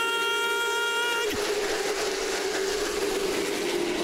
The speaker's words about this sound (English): the Honeywell Home Throwback 276, green flag, green flag, green flag!